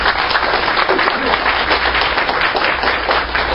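An audience applauds to welcome a visiting pastor, dense and loud clapping that runs steadily throughout.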